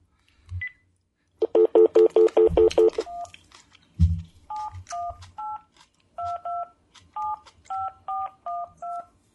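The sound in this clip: Touch-tone beeps from a phone keypad dialing a number. There is a rapid burst of buzzing pulses, then many short steady tones in an uneven rhythm, with a few low thumps in between.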